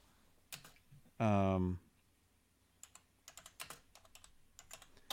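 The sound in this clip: Computer keyboard typing comes through as scattered, uneven clicks and taps in the second half, after a brief loud tonal burst near the start. The keystrokes are fairly faint.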